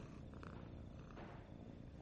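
A cat purring while held close against a person's chest: a faint, steady, low rumbling purr that runs on continuously without breaks.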